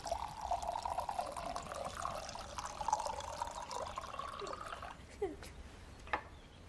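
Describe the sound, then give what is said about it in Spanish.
Milky tea pours from a jug into a cup in a steady, trickling stream that lasts about five seconds, then stops, leaving a couple of faint drips. “Diana mira rígidamente a Alicent mientras vierte el líquido lechoso en la copa”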